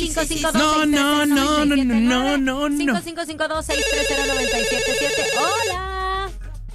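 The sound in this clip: A telephone ring tone sounds on a game show as a contestant's call is placed. Loud, excited voices come first, then a steady electronic ringing holds for about two seconds before fading into quieter sound.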